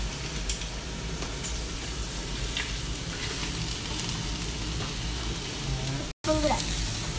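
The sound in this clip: Meat frying in a pan without oil gives a dense, steady sizzle with scattered crackles and pops, continuous throughout apart from a brief cut near the end.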